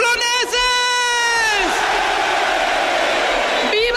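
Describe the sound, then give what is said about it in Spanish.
A crowd erupts at the chupinazo opening the San Fermín festival in Pamplona, a loud, sustained wall of cheering and whooping with long drawn-out yells rising above the din. “El chupinazo en Pamplona, que ya está de fiesta, arranca los Sanfermines.”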